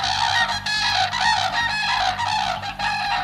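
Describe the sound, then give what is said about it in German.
Common crane calling, a few loud, harmonic trumpeting calls repeated in quick succession with short gaps between them. “Also das ist welcher Vogel? Der Kranich? Ja!”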